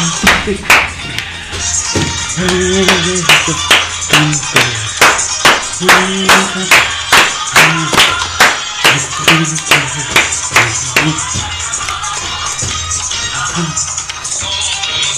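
Applause welcomes a guest: loud, steady rhythmic clapping with many evenly spaced claps that keep going for about fifteen seconds.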